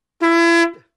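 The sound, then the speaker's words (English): A conch shell blown by a conch honker gives one loud, steady honk of about half a second, rich in overtones and ending with a brief falling pitch. “That is the sound of a conch shell, C-O-N-C-H, and was also the sound of the man who was blowing it, a conch honker,”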